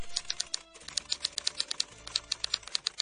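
Rapid clatter of an automatic typewriter typing at speed, a dense run of many sharp, bright key strikes with a brief pause near the start, heard alone without voices.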